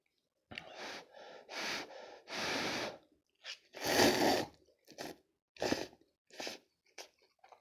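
Someone eats ramen noodles in a light, thin broth. About a dozen loud, irregular bursts of slurping, chewing and breathy intakes come one after another, separated by short silences.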